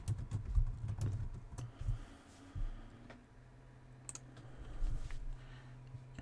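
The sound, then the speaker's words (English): Typing on a computer keyboard, entering a search term: a faint, uneven run of soft key clicks over a low steady hum. “You can just type in Google Analytics into the search box.”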